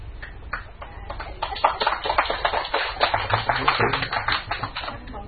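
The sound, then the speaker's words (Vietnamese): An audience at a lecture applauds with many rapid hand claps, a crackling patter that grows denser and louder partway through and then continues steadily to the end. “Các vị nào vỗ tay thêm lần nữa chắc tôi đi xuống quá, rất là mắc cỡ.”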